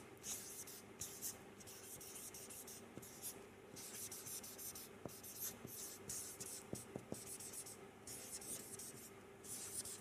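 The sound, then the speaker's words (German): Handwriting is heard as faint scratching strokes that come in short repeated bursts with small pauses, a soft, dry, continuous rasp throughout. “Das schreibe ich jetzt mal hier hin.”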